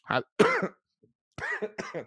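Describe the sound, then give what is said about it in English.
A few harsh coughs and throat-clearing bursts come in two clusters separated by a brief pause, fairly loud, with no talking. “I almost made it without coughing. Dang it.”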